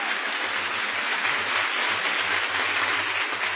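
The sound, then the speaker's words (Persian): Applause at a wedding: dense, continuous clapping from a crowd, steady and loud throughout, with a low thumping underneath. “هر جا کف داره بزن، عروسیه دیگه، هیچ کی نمیتونه بگه چرا کف میزنی، عروسیه.”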